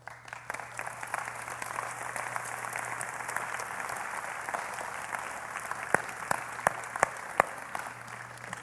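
An audience gives steady, faint applause for the sound technician in the booth. The clapping is continuous, with a few sharper, louder claps standing out near the end.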